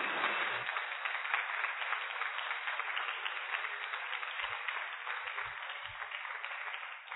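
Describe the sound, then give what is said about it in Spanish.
A church audience applauding, a sustained and even roar of clapping that lasts the whole clip, with a few soft low thumps near the end. “una ovación, así un aplauso tremendo al Señor? Con todo nuestro corazón.”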